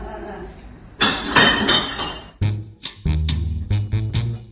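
Glass bottles clink and knock together as rubbish is sorted in Shanghai. A stretch of rustling handling leads into a series of sharp, ringing glassy strikes at an irregular pace.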